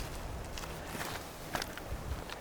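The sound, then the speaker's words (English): Footsteps walking over the rocky shore of a reservoir, heading uphill. Several irregular, crunching steps scuff and grind on loose stones, with no voices. “you can listen maybe to the sound of my feet on this rocky shore by the reservoir as I walk up towards the green hills.”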